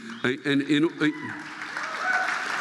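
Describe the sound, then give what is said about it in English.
Thin, scattered applause from a small college audience rises after a man's short stretch of talk, a low, diffuse patter that lasts a little over a second. “and as you can hear from the applause, these people don't support anything as a group.”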